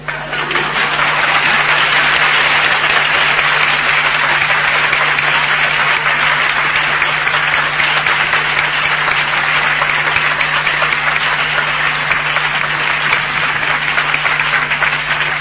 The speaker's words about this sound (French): N'oubliez pas ma bonne main d'applaudissement.